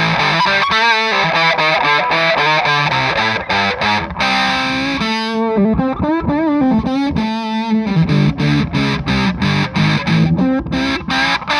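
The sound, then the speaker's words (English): Filtered fuzz guitar tone from an Electro-Harmonix Big Muff pedal: thick, heavily distorted chords and notes with a narrow, boxy voicing. It plays loudly and continuously, with choppy rhythmic attacks alone and no talking. “it's like a very filtered sound. I feel like the tone on the green vodka and the electroharmonics Big Muff is a very different structure.”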